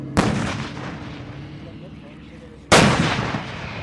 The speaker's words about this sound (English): two self-propelled howitzers still have not begun their target practice. But then, we're told it's finally going to start.